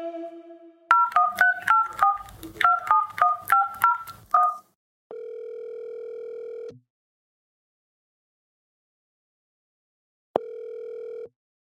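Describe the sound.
A telephone number is dialed on a touch-tone phone: a brief dial tone, then a quick run of many keypad beeps, followed by two long, steady ringback tones separated by silence.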